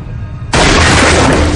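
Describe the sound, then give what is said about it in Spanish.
A gunshot fired into the top of a large water tank in a hospital machine room: one abrupt, very loud burst that cuts through a quiet background and stays harsh and loud to the end. “Saca su arma y dispara haciendo un orificio en la parte superior del contenedor.”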